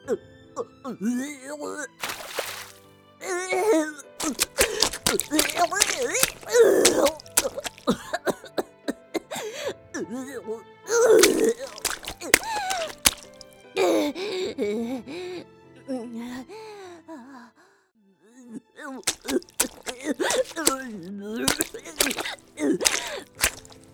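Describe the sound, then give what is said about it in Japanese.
A sick person retches and vomits to expel a poison. Harsh coughs, gagging heaves and groans repeat throughout, mixed with spoken lines and broken by a brief quiet spell near the end. “むしろ吐かぬといかん。毒素を外に出さぬといつまでも治らぬ。”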